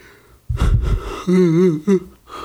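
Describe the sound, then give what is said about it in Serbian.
A man yawns: a breathy, gasping intake opens into a drawn-out voiced groan with a wavering pitch, then ends in a brief second vocal puff. “Znači, izvinjavam se na zevanju”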